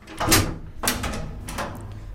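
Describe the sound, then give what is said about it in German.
A floor hatch in an entrance hall is opened above a cellar, giving three broad knocking, scraping bursts of moderate loudness, each fading into a low rumble. “Um in den Keller zu kommen, muss man in der Eingangshalle eine Bodenluke öffnen. Dann steht man über einem dunklen Loch.”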